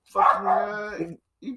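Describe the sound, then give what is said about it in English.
A dog barks, a bored, overstimulated dog that was fed sugary tea: one long, drawn-out harmonic bark, then a brief pause and a short second bark. “Well, he was going to bark if I didn't give him some, and now I'm all out, so he's barking.”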